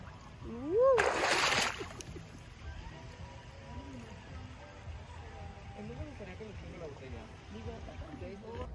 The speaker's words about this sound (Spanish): está delicioso venir a nadar aquí.